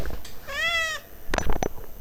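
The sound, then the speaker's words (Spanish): A restless cat gives a single clear, drawn-out meow, followed by a few short, noisy bursts. “¿Lo escucharon? Ese fue el gato Marcus que hoy está como loco”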